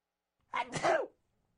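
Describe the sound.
A single sneeze from a person with allergies, sneezing into a microphone: a short, sharp burst of breath and voice, heard alone against near silence.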